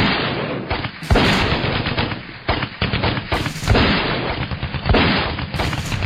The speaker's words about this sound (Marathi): ते पुढे सरकताच MMG आणि LMG धडधडू लागल्या.